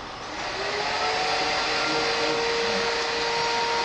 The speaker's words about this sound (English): No, I thought that they were finished vacuuming, but I guess they're not. No, usually with doors are open, but sometimes we can't control the cleaning schedule.